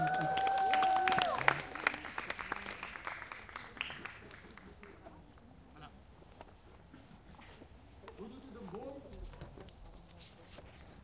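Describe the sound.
Audience applause at a climate café talk in Antwerp, a dense burst of clapping that is loudest in the first few seconds, then thins and fades under voices.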